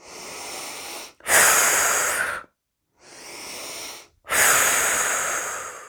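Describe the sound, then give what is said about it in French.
Slow, airy breathing during a guided relaxation breathing exercise: two long breath cycles with drawn-out, hissing exhales, separated by short silent pauses. “rétention, tension douce, expiration, les doigts viennent se poser sur le point d'interaction de notre premier espace et à chaque expiration, nous nous libérons des tensions.”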